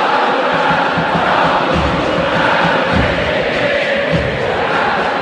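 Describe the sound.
A stadium crowd at the Monumental before a football match, a loud, steady wall of chanting and cheering voices that holds throughout without a break.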